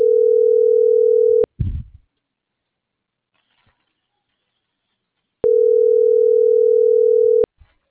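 A phone call rings unanswered: two long, steady low ringback tones separated by a stretch of silence, with a brief low rustle just after the first tone.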